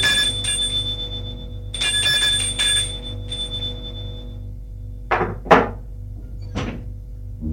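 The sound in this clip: Doorbell ringing at a house door: bright, high-pitched chiming bursts ring out twice, then fade, followed by a few dull thuds and knocks.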